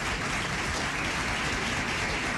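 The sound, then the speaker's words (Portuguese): Steady applause from an audience honoring a figure of southern Brazilian society, a dense, even wash of clapping that holds at a constant level throughout with no talk over it. “sociedade sulista, catarinense, rio-grandense também, Adilson Cadorinho, uma salva de palmas para ele.”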